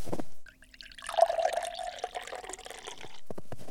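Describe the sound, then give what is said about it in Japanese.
Hot water is poured and mixed into flour for pizza dough, 300 g of flour with 200 cc of water: a faint liquid pour and splash lasting about two seconds, framed by soft handling noises. “今から生地を作るところだからもう少し時間がかかるな。さてと、小麦粉 300g とお湯 200cc を混ぜて。”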